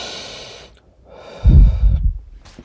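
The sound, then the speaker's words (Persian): A slow, calming breath, heard as soft breathy rushes of air, with a fuller, rougher exhale near the middle and no talking. “هر کاری که دارین توقف کنین. آرام ساکت باشین. نفس بکشین”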